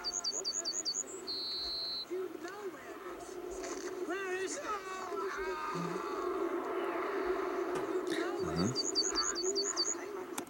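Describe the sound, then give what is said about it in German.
Yellowhammers sing rapid runs of short, high, repeated notes, heard clearly at the start and again near the end over a steady background murmur, with other faint sounds in between. “Habt ihr die Vögel gehört? Ja. Wisst ihr, was das für Vögel sind? Nein. Keine Ahnung, könnten Meisen sein. Ich hab's mit einem Vogelkundler gecheckt, das sind Goldammern.”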